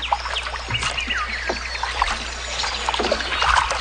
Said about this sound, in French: Ah, c'est zen. On est en canot, là.